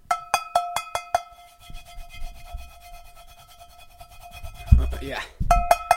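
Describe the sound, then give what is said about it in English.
Oil being rubbed into the surface of a cast iron pan, heard as a steady rasping, scrubbing friction. A run of bright, ringing ticks comes before it and briefly returns at the end. “Rub it. Yeah, get it, work it. Work that oil in to the surface. That's my cast iron pan,”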